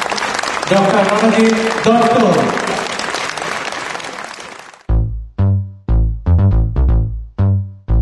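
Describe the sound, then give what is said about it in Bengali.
Audience clapping welcomes a lifetime achievement award recipient at a Bengali cultural conference. Dense, loud applause with voices in it lasts about five seconds, then ends as music with a run of struck chords begins. “দর্শক মন্ডলী, করতালি দিয়ে ওনাকে আহ্বান জানান।”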